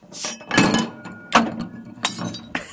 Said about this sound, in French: Il y a un verre qui est tombé.